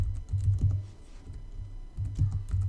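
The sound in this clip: Clattering keystrokes as a username is typed on a computer keyboard: quick clusters of taps, a brief slower lull in the middle, then another flurry of fast typing.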